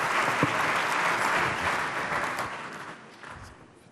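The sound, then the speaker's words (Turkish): Audience applause greets guests invited onto a stage at an official ceremony: dense, steady clapping that holds loud for about two seconds, then gradually thins and fades toward the end. “Suk Jong-Boon'u alkışlarımızla sahneye davet ediyoruz. Buyursunlar lütfen.”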